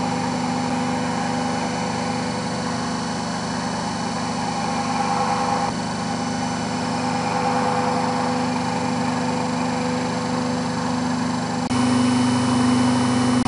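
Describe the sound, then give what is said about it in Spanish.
An electric generator runs without excitation, giving a steady, droning mechanical hum with a low tonal buzz and faint higher whine, holding a constant loudness apart from a couple of slight shifts in tone. “El generador no tiene excitación.”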